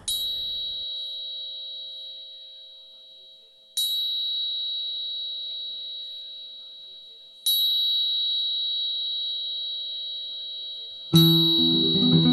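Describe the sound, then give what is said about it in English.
Solfeggio-tuned tuning forks struck four times at regular intervals of several seconds, each strike giving a bright metallic onset and a pure, steady ringing tone that slowly fades before the next one. “The sound you're hearing is from my tuning forks, which are both solfeggio frequencies”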